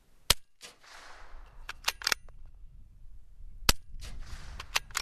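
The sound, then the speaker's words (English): Two sharp, loud rifle shots fired after the sight has been adjusted, one near the start and one later, with several smaller mechanical clicks and handling noises between them. “I shoot again with the adjusted sight.”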